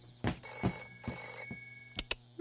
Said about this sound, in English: Clubhouse phone? Huh? Oh, clubhouse phone. I got it.